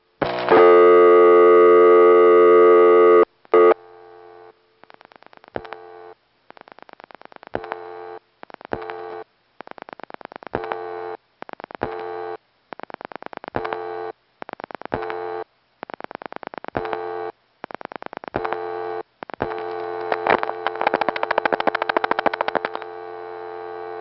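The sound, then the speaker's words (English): A telephone call is routed from a 4A switch through a Crossbar 5 tandem that dial-pulses into a small step-by-step office. A steady buzzing tone of a few seconds is followed by many short tone bursts broken by clicks and brief silences. “This next call goes directly to the 4A in Richmond, Virginia, which then goes to the Culpeper, Virginia Crossbar 5 tandem, which dial pulses into a little step.”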